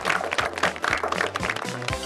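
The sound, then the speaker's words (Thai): Applause for young martial arts students: a dense, steady patter of many hands clapping, moderately loud and continuous throughout, with faint low steady tones underneath. “เก่งมากๆเลยปรบมือให้เพื่อนทุกคน”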